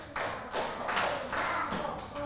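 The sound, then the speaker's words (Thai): Students clap their hands in groups, producing a few sharp, fairly loud claps in an uneven sequence with no talking. “กลุ่ม4ปรบมือ1ครั้งนักเรียนปลายทางปรบมือ5ครั้ง”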